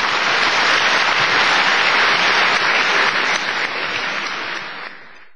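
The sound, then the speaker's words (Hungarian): Warm audience applause welcoming a visiting master on stage at an evening event, a loud, dense roar of clapping that holds steady and then tapers off near the end. “Kérem, szerető tapsukkal fogadják.”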